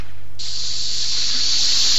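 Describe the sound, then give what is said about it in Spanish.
A lit fuse hissing before a bomb: a bright, loud, steady hiss starts abruptly after a brief moment and runs evenly to the end over a constant low hum. “Prendo la mecha y ¡bomba!”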